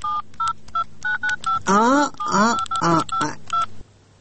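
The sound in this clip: A telephone number is dialed as a rapid run of keypad beeps, each a short, even electronic tone, with a voice briefly heard partway through before the tones resume and end.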